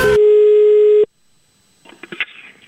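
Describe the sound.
A telephone call tone holds one steady pitch for about a second and then stops abruptly. Near silence follows, broken by a few faint clicks and rustles.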